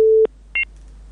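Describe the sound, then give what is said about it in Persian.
A telephone line tone sounds after a caller's connection drops: one steady, sustained beep, a short pause, then a brief higher-pitched beep. “تماسی شنوندی ما قطع شد.”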